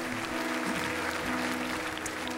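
An audience applauds at a church service, with steady, dense clapping throughout.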